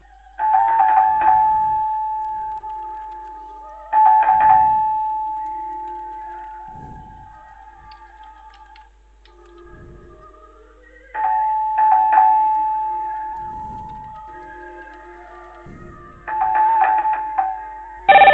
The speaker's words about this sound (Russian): Звонят.